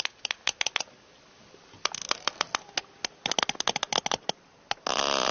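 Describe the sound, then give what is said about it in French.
Sperm whale coda clicks picked up by hydrophones: many sharp, dry clicks in irregular clusters separated by quiet gaps, ending in a dense burst of crackling noise. “Les cliquetis que vous entendez sont des codas. C'est le mode de communication des cachalots.”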